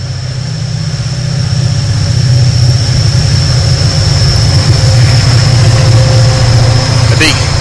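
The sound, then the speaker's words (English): A massive Australian coal train hauls its load uphill with a heavy, steady low rumble and droning engine hum. The sound swells in the first second, then holds loud and unbroken throughout. “massive Australian coal train going up. Take the coal.”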